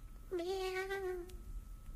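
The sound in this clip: A cat gives a single drawn-out meow, a clear tonal call lasting about a second over a faint background hiss.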